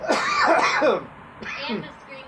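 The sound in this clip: Coughing and throat clearing made as a deliberate vocal effect, in two raspy, voiced bursts. The first is longer and fills the first second; the second follows a short pause. Both are moderately loud, with no words spoken.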